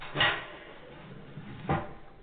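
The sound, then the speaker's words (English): Two dull knocks sound on a front door, spaced about a second and a half apart, over a quiet background. “It's the front door.”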